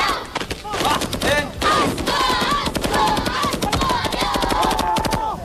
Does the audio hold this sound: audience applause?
no